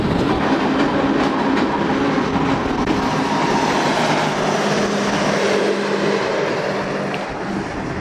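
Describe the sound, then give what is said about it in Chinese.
A train on the Qinghai-Tibet railway pulling into a high-plateau station: a loud, steady rumble with continuous rattling of the rails and cars, easing slightly near the end, with no talking. “列车即将驶入沱沱河站，这里也是距离三江源最近的车站。”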